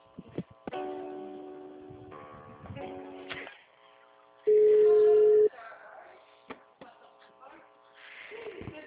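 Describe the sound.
Telephone line tones while a call is being transferred: a steady electronic tone holds for about a second midway, surrounded by other shorter beeping tones and clicks.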